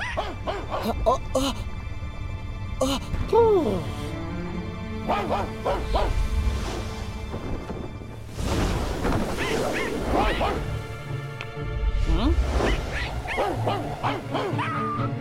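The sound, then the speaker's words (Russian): Dogs bark repeatedly in loud, overlapping bursts, mixed with yips and whimpering whines between barks, continuing throughout. “Собаки что-то увидели и лают.”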